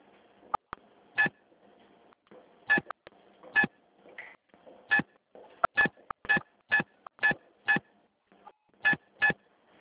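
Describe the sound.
Telephone keypad tones as a card number is entered into an automated phone menu: a long series of short, steady-pitched beeps in an uneven rhythm, heard alone without talk.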